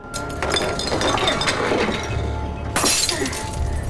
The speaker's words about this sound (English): She smashes a wine bottle.